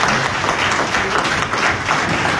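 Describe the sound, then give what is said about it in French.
Audience rising to its feet and applauding at the end of a speech: dense, loud, continuous clapping that holds steady throughout. “Et tout le monde se lève là. Tout le monde se lève pour applaudir Benny Elon.”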